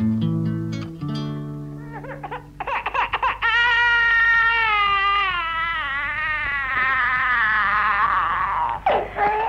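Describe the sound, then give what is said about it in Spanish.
A baby cries in one long, wavering wail that holds loud and steady for several seconds, after a brief stretch of tonal sounds at the start. “yo no sé qué le anda pasando al gurí. Desde ayer que llora y llora.”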